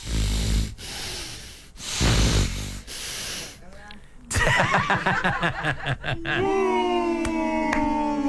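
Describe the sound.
A human voice imitates heavy, snorting breathing with four loud, rough snort-like inhalations and exhalations in a row, followed by a run of shorter voiced grunting and chuckling sounds.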